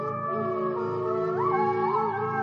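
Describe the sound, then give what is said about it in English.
Wolves howl together in an overlapping chorus. Several long, sustained tones hold steady while others glide up and down in pitch, forming a continuous, fairly loud sound with no talking. “They howl to communicate, to find each other, and to tell other wolves that this is their territory, so stay away.”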